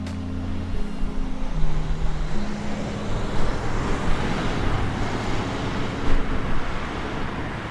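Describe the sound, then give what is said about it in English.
Cars pass by on Ridge Road in Munster, a main thoroughfare in Lake County, a continuous loud roar of traffic with low engine hum that swells and fades as vehicles go by. “What you're hearing is the sound of cars passing by on Ridge Road in Munster, one of the main thoroughfares of Lake County.”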